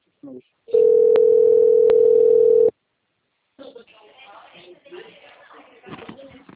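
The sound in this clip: Telephone dial tone heard while a call is being placed: one brief blip, then a steady single-pitched tone with a couple of faint clicks for about two seconds, followed by silence and then a person talking.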